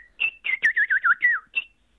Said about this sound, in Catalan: I el que t'agrada molt és el picot negre. Bé, és un cant, sí, cant, que en anglès no en dirien cant,